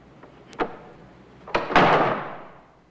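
A trapdoor leading up to a belfry shuts: a sharp single knock, then a louder, heavier slam whose ringing tail fades out over about a second.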